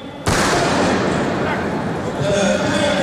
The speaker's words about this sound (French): Il y a eu un coup de feu.